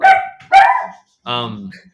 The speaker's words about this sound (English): Sorry, my dogs.